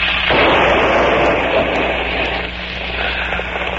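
A car that caught fire at the seat explodes into a loud, sustained, roaring blast that rumbles on and eases slightly toward the end.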